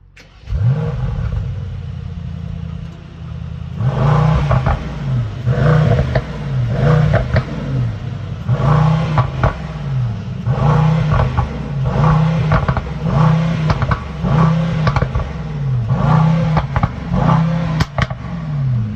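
A car engine revved over and over through an exhaust fitted with a petrol particulate filter in its latest upgrade stage. Many rhythmic revs rise and drop back, giving a muffled, fairly subdued low growl.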